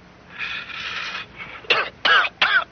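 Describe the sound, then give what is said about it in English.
A cigarette drag: a long, breathy inhale of smoke followed by a few harsh, rasping coughs with short gaps between them. “Now, I hope you noticed I took a deep drag.”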